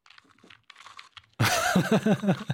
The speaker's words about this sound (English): It gets you like in the way that somebody would be grinding their teeth right next to you.